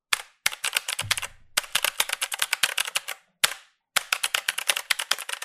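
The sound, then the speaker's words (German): Typing on a Razer BlackWidow V3 Pro gaming keyboard with mechanical switches gives sharp, loud clacking keystrokes in rapid bursts, broken by a few short pauses, with no voices. “Die Black Widow V3 Pro habe ich übrigens selbst zu Hause und was soll ich sagen? Besonders in Verbindung mit den mechanischen Switches ist das einfach nur ein geiles Spielgefühl. Ich meine, hört euch das mal an!”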